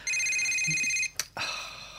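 A telephone bell ringing with a steady, high, metallic trill for about a second, then cutting off, followed by a sharp click and a soft rustle.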